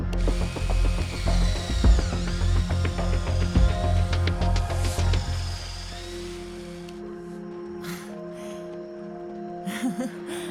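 A power drill borrowed from a fire department bores an emergency burr hole in an injured patient's skull to relieve an epidural hematoma. A whirring, high-pitched whine wavers in speed for about seven seconds, then stops, leaving quieter background sound.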